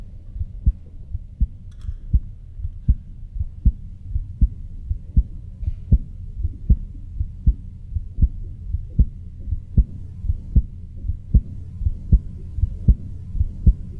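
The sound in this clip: A human heartbeat recorded with a microphone about six inches from a woman's chest: many strong, low thumps in a steady, regular rhythm, alone over a faint hum.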